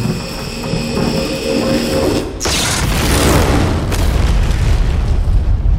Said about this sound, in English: Despite her efforts, though, the colony itself is severely damaged when the command tower is destroyed. Chip and Mateo barely survive that blast